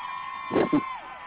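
A short crowd cheer sound effect made of two quick bursts of shouting and whooping over a steady tonal background, lasting only about a second.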